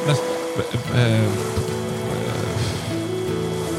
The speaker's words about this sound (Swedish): Akustisk gitarr och lite vatten.